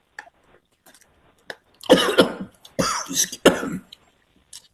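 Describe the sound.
Coughing after a sip of water went down the wrong way: a few harsh, rough coughs and throat-clearing bursts in an uneven cluster, with small breathy sounds before and after and no speech.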